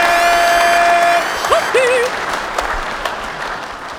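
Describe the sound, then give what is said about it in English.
Steady, dense applause with clapping hands in a crowd, loud at first and then a little softer, continuing for about four seconds without pause. “Clap for me,”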